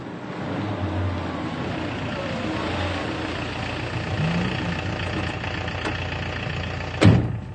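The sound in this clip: A taxi's engine idles with a steady, low, constant hum, and a brief sharp knock sounds near the end.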